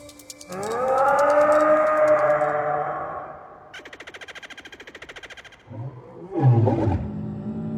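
Dinosaur roar sound effects: a long, deep roar whose harmonics slowly slide downward, then a rapid pulsing, rattling growl, and finally a short, harsh, loud bellow.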